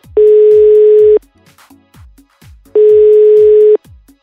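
Telephone ringback tone during a call to someone who doesn't answer, heard as two steady, loud one-second tones separated by a pause of about a second and a half.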